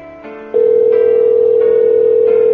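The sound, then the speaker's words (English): A telephone rings with no answer: a single steady ringing tone holds for about two seconds over a faint, constant background. “I am ringing you, and you're not picking up. So I don't know what's happening. I'm sure you're listening right now, and you hear the ringing, and you hear that you're not picking up.”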